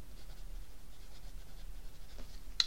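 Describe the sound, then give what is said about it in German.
Soft, irregular scratching of a pen jotting quick notes on paper, faint throughout and ending with one short, sharp click. “Schreibe ich mir schnell auf.”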